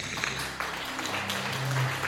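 A short burst of light applause, soft and continuous for about two seconds.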